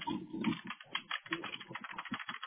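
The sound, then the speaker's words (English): Typing on a computer keyboard while searching for a person's profile online, a quick, irregular run of many soft key clicks, fairly faint and slightly muffled. “If I could type.”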